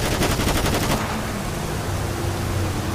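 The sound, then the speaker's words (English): Rapid gunfire from a police video game: a dense burst of quick shots in the first second, then a steady, noisy wash of continuous fire to the end. “Watch out. Shots, shots, shots, shots.”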